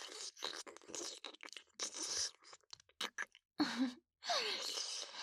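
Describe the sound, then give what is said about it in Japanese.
Wet kissing sounds, close and fairly faint, in many irregular bursts of smacks and lip noises separated by short silences. “いっぱいキスしよう。”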